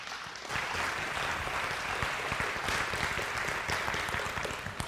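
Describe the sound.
Faint audience applause welcoming a speaker: even, continuous clapping that rises quickly at the start and holds steady for several seconds without talk.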